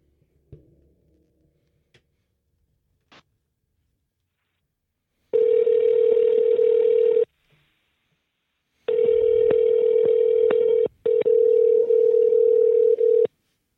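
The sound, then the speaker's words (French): A telephone call is placed: a few faint clicks come first, then a steady electronic ringing tone sounds in three long, loud stretches separated by short silences. “Hey, on pourrait l'appeler. On l'appelle-tu? On va l'appeler.”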